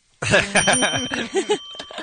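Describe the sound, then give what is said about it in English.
A bell rings on request, its sustained bright tone holding for about two seconds while voices talk and chatter over it. “Bell, please.”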